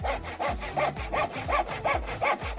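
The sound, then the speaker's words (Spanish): A handsaw cutting through wood in a steady rhythm of rasping back-and-forth strokes, each one a coarse gritty scrape, loud and alone with no voices. “No se pierdan la promoción online del día. Es este inigualable serrucho.”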